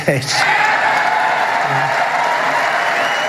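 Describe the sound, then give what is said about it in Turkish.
Applause fills a hall after a speech by the US president, a dense, even wash of clapping from a crowd, with a brief voice at the very start. “ABD Başkanı Donald Trump'ın bu sözleri salonda alkış toplasa da”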